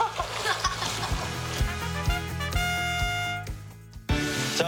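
Water splashes from arm strokes as a person rolls onto their back and paddles during a water-safety escape drill. Repeated slaps and sloshes run over a steady wash of background noise.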